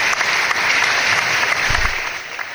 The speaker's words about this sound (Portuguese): Aí é mais uma salva de palmas, por favor.